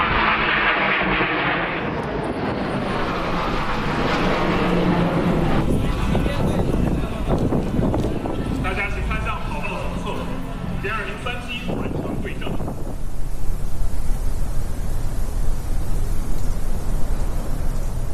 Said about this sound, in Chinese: 双击编队我们看过好几次他们对穿的动作，但是他们的速度有多快，高度有多高，对穿的距离有多近，这是每一次最大的悬念。